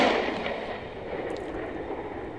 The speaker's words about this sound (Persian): موشک با ردی سفید به سوی اشرار به پرواز در آمد و لحظه ای بعد در نزدیکی آنها منفجر شد